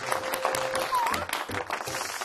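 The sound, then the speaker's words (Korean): Audience applause, a steady dense patter of many hands clapping throughout, with some voices mixed in. “와, 이건 또 박수 나와야 됩니다.”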